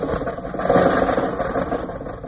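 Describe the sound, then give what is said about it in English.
A rickety car's engine runs as the car drives off, with a cough drop dropped in its gas tank. It makes a steady, rattling, mid-pitched rumble that swells slightly and then holds, with no voices. “I threw a cough drop in the gas tank. Now, Rochester, drive us out of North Hollywood.”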